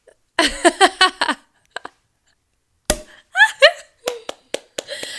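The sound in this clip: A single sharp pop as a cork comes out of a bottle, with excited voices talking before it and reacting right after.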